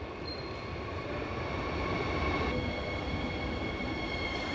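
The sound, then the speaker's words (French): A night train arrives at a station in Berlin after a 13-hour overnight run, giving a steady, loud rumble with thin, high squealing tones held throughout. “Il est 7 heures du matin, le train arrive en gare de Berlin après avoir roulé 13 heures.”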